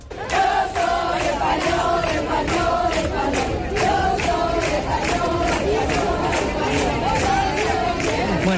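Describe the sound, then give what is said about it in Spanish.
A crowd chants in the streets of Melilla during a visit by the Spanish king and queen, a loud, continuous, rhythmic chorus of many voices with regular beats throughout. “Los cánticos han sido constantes, como este que estás escuchando.”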